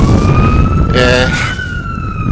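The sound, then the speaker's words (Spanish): Fire department ambulance sirens wail outdoors in strong wind, a steady, loud, slightly wavering siren tone over constant rumbling wind noise. “ahora mismo pues estoy aquí fuera y aparte podéis escuchar las ambulancias del departamento de bomberos.”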